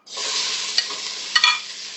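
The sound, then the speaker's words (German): Vegetables hit hot oil in a pan and fry with a loud, steady sizzle. A few sharp clinks and scrapes of stirring cut through the hiss, with no voices. “Dann brennt aber oben das Öl durch jetzt. Gemüse rein.”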